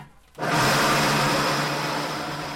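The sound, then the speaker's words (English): A very large mixer grinder with a four-ring blade chopping cigarette filter fiber, kicking in abruptly and then running as a loud, steady whirring roar with a constant hum. “So I'm looking down a very, very large mixer grinder. It's got a four-ring blade in it, very large.”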